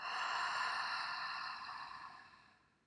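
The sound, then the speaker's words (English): A deep breath is let out through a wide-open mouth during a guided relaxation exercise. It is a single soft, breathy exhale that fades away over about three seconds. “let's start by taking some deep breaths. In, open your mouth, out.”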